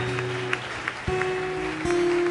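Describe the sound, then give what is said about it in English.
Congregation clapping during a worship service, a soft, steady patter of hands alongside sustained keyboard tones that shift pitch a few times. “Koinonia, are you still clapping?”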